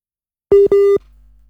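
Phone busy tone after a call suddenly disconnects: two loud, steady, buzzy mid-pitched beeps, the first slightly shorter, followed by a faint low hum.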